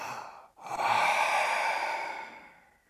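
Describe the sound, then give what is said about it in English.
A deep breath is exhaled during a guided breathing exercise: a brief breathy intake and a short pause, then a long, airy exhale that swells and slowly fades to quiet. “We'll take three more. And really stretching for that last breath.”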